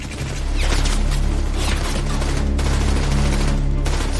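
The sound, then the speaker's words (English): An enemy machine gun opens fire on Canadian defenders in a wartime battle, producing a dense, loud, unbroken stream of rapid shots with a heavy low rumble. “They open up fire on the Canadian defenders.”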